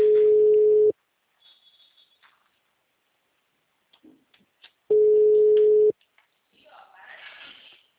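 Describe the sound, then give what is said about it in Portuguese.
Telephone ringback tone: two steady, low-pitched beeps, each about one second long, separated by a long silent gap, with faint scattered noise between them and afterwards. “Chama.”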